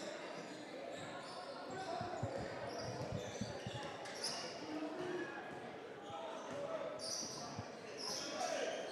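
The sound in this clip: A basketball dribbled on a court during a boys varsity high school game: a steady run of low, thudding bounces under a commentator's voice and background crowd noise.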